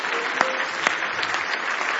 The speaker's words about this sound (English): Give Him one more hand clap of praise if you love Him this morning.